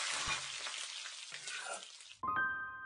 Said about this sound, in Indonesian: Ibu, kenapa telurnya digoreng utuh?